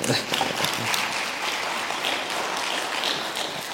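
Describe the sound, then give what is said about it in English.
An audience applauds a singer with steady, dense clapping that stays loud and even throughout, with no voices over it. “It would be okay if you clap for Suzanne”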